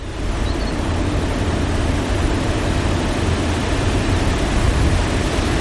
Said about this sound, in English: On a sunny day with few clouds and low wind, large cooling fans on the roof and ground sound kind of like a box fan in the next room of a home.